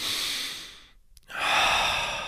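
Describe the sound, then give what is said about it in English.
A deep breath: two long, breathy rushes of air separated by a short pause, fairly loud and steady, with no talking. “Deep breath.”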